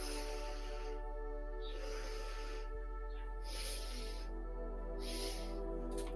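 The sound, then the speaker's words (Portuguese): A deep breath drawn in during a guided breathing exercise: soft, airy hissing rises and falls in several gentle waves over a constant low hum. “E vamos uma última vez. Inspira.”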